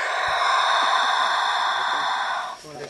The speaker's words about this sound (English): Have you ever heard a giant land tortoise breathe?